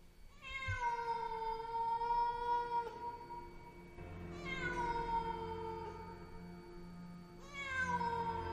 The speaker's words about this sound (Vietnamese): một con mèo đen láy to đùng bỗng đâu xuất hiện.